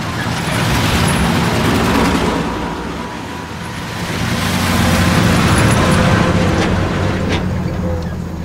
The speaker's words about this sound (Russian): Дорога в лесу. По ней двигаются два военных грузовика.